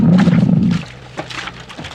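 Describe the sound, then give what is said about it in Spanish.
A tiger roars threateningly: a loud, deep, rasping roar lasting under a second, which then drops into a quieter, rumbling growl that trails off. “el tigre se detiene y voltea a ver a su ama al tiempo que ruge amenazante.”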